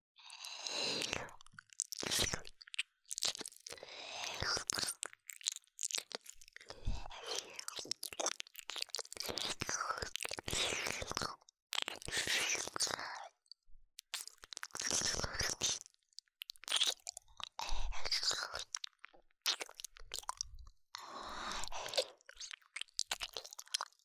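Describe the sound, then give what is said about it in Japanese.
Wet ASMR ear-licking close to the ear produces many soft, irregular, crackly slurps and mouth clicks in uneven bursts, with faint whispering and brief pauses between them. “お耳ジュポジュポさせてください。舐めますね。”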